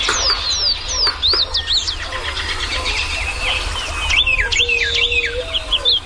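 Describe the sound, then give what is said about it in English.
Birds sing in early spring as they return and set up territories, with many quick, repeated high chirps and whistled phrases overlapping in a busy chorus over a steady low rumble. “the serenade of birds early in the spring when birds are first returning and begin setting up territories is as good or better than any place I've heard anywhere in the country.”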